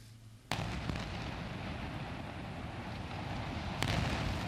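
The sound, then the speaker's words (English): Two sharp blasts from an Israeli airstrike on a Gaza tower block housing apartments and international media offices. The first breaks out of a quiet start into a sustained, loud, rumbling roar, and a second burst strikes near the end. “And Israeli airstrikes also destroyed a tower block, housing apartments, and offices of international media organizations.”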